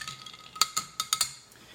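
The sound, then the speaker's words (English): Ice clinking as a cocktail is stirred in a container: five sharp, faint clinks in an uneven rhythm over a soft background hiss. “we seem to have about the right amount of ice to liquid ratio for a proper stir.”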